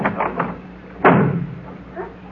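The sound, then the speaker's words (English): A single heavy door slam in an old radio comedy as someone leaves the studio: a sharp, loud thud partway through, set among quieter sounds. “That door slam wasn't Robert. It was Tony Curtis leaving the studio.”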